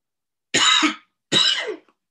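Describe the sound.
Two short, breathy coughs from a tickle in the throat, each a brief harsh burst, heard alone with silence before and after.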